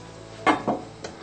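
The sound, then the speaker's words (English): A lid is set on a cooking pot while chapati cooks inside. Two quick metallic clinks come close together, the first the loudest, followed by a third fainter tap, all quiet over a low background hiss. “Cover the pot with the lid.”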